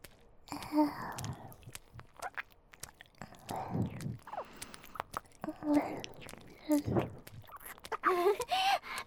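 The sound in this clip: Wet, close ear-licking mouth sounds in an ASMR setting. Irregular slurps, smacks and soft breaths repeat throughout at a quiet level, with a few brief vocal sounds near the end.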